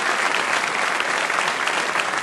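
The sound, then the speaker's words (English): Audience applause at a live debate event: steady, dense clapping that holds at an even level from start to finish, with no single voice standing out. “Let's give him a round of applause.”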